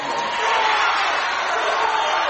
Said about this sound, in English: And Pruitt Hall is letting him know that he just fouled out of this one.